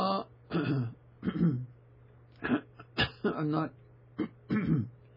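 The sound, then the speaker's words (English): Several throat-clearing rasps and short guttural grunts come in irregular bursts with brief pauses between them, fairly faint, over a steady low electrical hum. “I need to clear my throat.”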